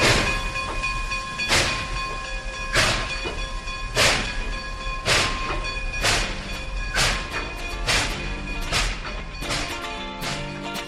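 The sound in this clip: A train travelling on rails, its wheels giving a steady rhythm of sharp clacks at roughly even intervals over a continuous tonal hum, moderately loud throughout.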